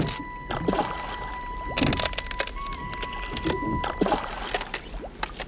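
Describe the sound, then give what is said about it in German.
A rowboat pushed into lake water under a thin layer of ice gives a few irregular knocks, scrapes and watery sloshes against a steady background. “Wir gingen hinunter zum See und schoben das Boot ins Wasser.”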